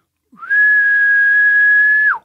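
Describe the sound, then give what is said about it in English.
A person whistling in imitation of a bull elk bugle: one loud, sustained, high whistle held at a steady pitch for almost two seconds, sliding up briefly at the start and dropping off at the end. “you ever heard of guys whistling to bugle at bulls? It's like, no, never have. He's like, give it a shot, you know?”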